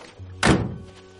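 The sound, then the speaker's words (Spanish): A car's rear door is opened with a single dull, solid thunk that fades quickly, alone with no talk. “El niño abre la puerta trasera del coche y saca la bolsa de viaje.”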